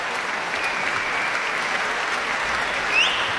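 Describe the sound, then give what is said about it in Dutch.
An audience applauds an orchestra in a concert hall, a dense, even wash of clapping that goes on without breaks at a steady, moderate level. “om het applaus in ontvangst te nemen”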